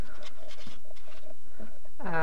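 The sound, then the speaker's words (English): Papery rustling and scratching as metal craft dies are pulled from a small envelope, a few soft crinkly bursts at a quiet level, with a voice starting at the end. “Now, they usually come in a little envelope. Get them all out.”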